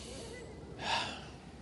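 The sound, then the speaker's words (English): A single deep breath, drawn sharply like a gasp, rises briefly out of a steady low background hiss and fades within about half a second. “Come on, take a deep breath.”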